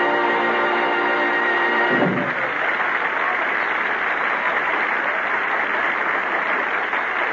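A big crowd at a horse racetrack makes a dense, steady roar that fills the whole clip, after a brief sustained musical tone that cuts off near the start.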